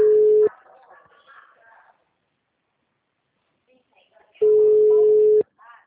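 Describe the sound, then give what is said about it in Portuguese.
A telephone ringback tone on an outgoing call gives two long, steady, fairly loud beeps separated by a few seconds of quiet, with faint murmuring after the first beep. “fala para André, eu tô ligando”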